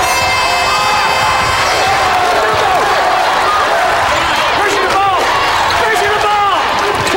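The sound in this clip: A basketball crowd roars and cheers in the stands after a home-team slam dunk, a loud, dense, continuous wash of shouting voices with high yells mixed in.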